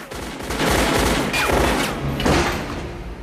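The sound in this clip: Gunshots crack in a rapid fusillade as a woman fires repeatedly at a man walking past rings supporting a rocket; a few loud, sharp bursts rise above a continuous heavy, noisy rumble.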